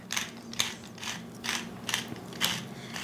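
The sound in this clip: A hand spice grinder crushes fennel seeds and black pepper with a quiet, even series of short, crunchy ratcheting bursts that repeat at a regular pace, with no voices.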